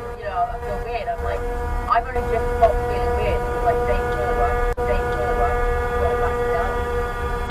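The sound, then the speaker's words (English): A vehicle horn sounds in the distance in one long, continuous blast, a steady unbroken tone that holds throughout over a busy rumbling background. “Yeah, that's a horn in the distance. Let's see how long this goes for. Crank it up.”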